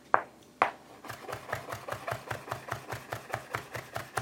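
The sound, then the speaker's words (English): A knife slices through food: two sharp cuts, then a long run of quick, evenly spaced strokes, fairly faint throughout. “I slice this in half. See this? And then I slice this in half again.”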